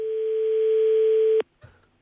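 A telephone busy tone after a call is hung up: one sustained, buzzy, mid-pitched tone that lasts over a second and stops abruptly, followed by a faint brief noise.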